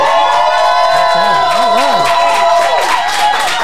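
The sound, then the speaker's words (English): A live studio audience cheers and whoops to make noise for a talk show host. The loud crowd roar holds steady throughout, with wavering high yells rising over it. “We are here with a live studio audience. Y'all make some noise.”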